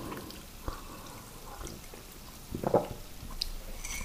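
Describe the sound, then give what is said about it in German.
Sipping coffee: a faint wet slurp of liquid, with one short, slightly louder burst late in the sound and a few soft drips and squishes over a quiet background. “jetzt mal einen Schluck Kaffee”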